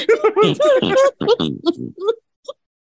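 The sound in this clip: A human voice imitates a tiny wild boar's grunt, with a rapid run of nasal, oinking grunts that thin into a few sparse squeaks before falling silent.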